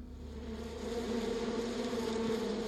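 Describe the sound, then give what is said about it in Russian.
Insects buzz on a spring morning in a steady, continuous drone with a low hum at its core. It is moderately loud and swells slightly partway through, with no voices. “Я услышал жужжащий говор насекомых”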